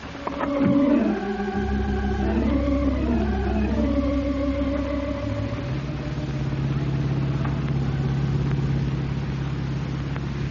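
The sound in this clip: A car drives along a highway with a steady, low engine drone that holds throughout. A brief louder swell comes near the start, and shifting tones sound over the engine in the first half.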